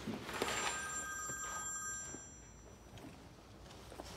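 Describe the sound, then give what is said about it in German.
A telephone rings, a call for a woman who is not there, giving a steady bright electronic ring with two high sustained tones for about two seconds before fading into low background noise. “Anruf für Franzi? Ja, oder von der Franzi.”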